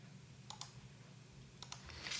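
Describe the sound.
Faint computer mouse clicks while an email is moved to a spam folder: two quick double clicks, one early and one later, over a quiet background hiss.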